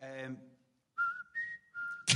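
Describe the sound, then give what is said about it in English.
A person whistles a short tune of a few clear notes while waiting for a lift, shifting between a lower and a higher pitch after a brief voice, and ending in a short noisy burst. “We just happened to fucking whistle that tune.”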